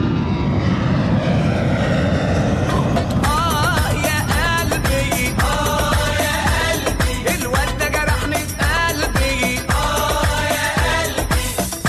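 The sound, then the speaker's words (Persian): An airplane comes in to land at Damascus airport, its engines producing a loud, continuous roar with a throbbing drone that holds steady throughout, with no voices. “فرودگاه دمشق فرود خواهیم آمد.”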